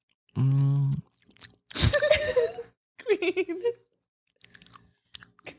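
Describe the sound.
Crunchy chewing of a cannabis edible, a 10 mg piece from a 100 mg bar, done close up as ASMR: a few loud crisp crunching bursts with short pauses, plus a brief hum and some soft mouth sounds.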